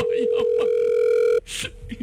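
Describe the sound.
A telephone tone sounds while calling a friend: one steady, clear tone holds for about a second and a half, then cuts off. Voices murmur under the tone and carry on after it.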